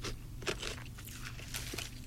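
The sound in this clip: Dry, crackly crunching as teeth bite into a potato chip: a few quick, irregular crunches, fairly faint, with no talk over them.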